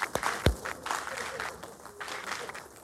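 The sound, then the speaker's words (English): Church audience clapping for the mothers in the room, a few sharp claps near the start giving way to a moderate, uneven patter of applause with faint voices mixed in. “Let's give all the moms in the room a hand clap.”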